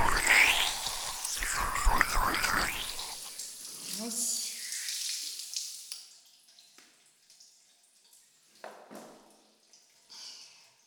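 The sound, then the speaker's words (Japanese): Water poured out to rinse, a broad rushing splash for the first few seconds that then drops away to quieter scattered noises and brief faint vocal sounds. “流しますね。”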